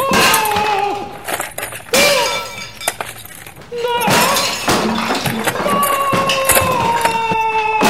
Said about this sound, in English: Crushed by an entire shelf of household appliances.